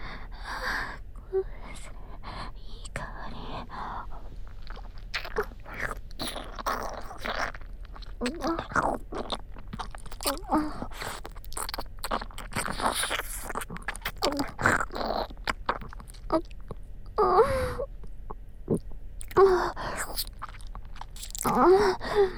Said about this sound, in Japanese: それじゃ熱くて美味しいうちにいただきます。